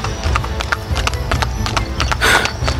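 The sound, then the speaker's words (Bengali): Hoofbeats of a horse pulling a two-wheeled carriage at speed: many quick, sharp clip-clops in a steady, driving rhythm, with no speech over them. “ঠিক সেই মুহূর্তে পথের বাঁকে দেখা গেল দু চাকার একটা ঘোড়ার গাড়ি কদম চালে মোড় ঘুরেই যান্ত্রিক শব্দ তুলে তীর বেগে গাড়িটা ধেয়ে আসতে লাগলো আমাদের দিকে”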